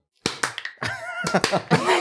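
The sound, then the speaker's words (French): A host claps his hands in an enthusiastic American-style welcome for a guest: several sharp, irregular claps with voiced sounds in between, moderately loud. “Alors je vous applaudis. Bravo. Attendez. Je vous applaudis à l'américaine.”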